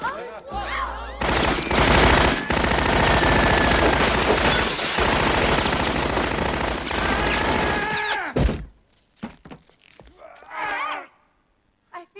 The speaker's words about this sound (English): Remember the holodeck from Star Trek The Next Generation? It was the room that let the crew travel anywhere and experience anything without leaving the Enterprise. It's also where Picard killed a couple of Borg in a 1920s nightclub with a Tommy gun.